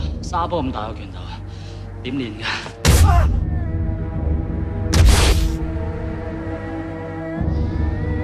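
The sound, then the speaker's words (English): Heavy punch thumps land in a film fight scene as a hulking beast strikes a man and launches him into the air, with two loud, booming impacts a couple of seconds apart. “The beast thumps Singh, splitting his jacket and launching him into the air.”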